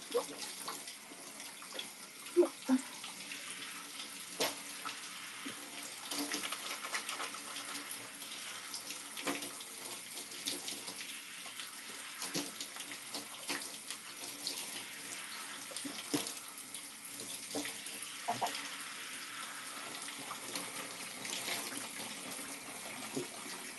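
Water running steadily from a tap while conditioner is rinsed out of hair, a faint continuous splashing flow with small irregular splashes and no clear pauses.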